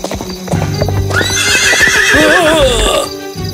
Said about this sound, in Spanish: No se puede montar a caballo en medio de la calle.